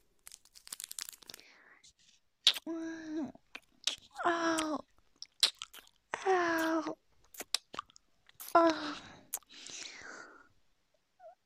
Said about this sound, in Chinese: 在干嘛？在吃糖呀，就和照片里我放进去的棒棒糖是一个口味的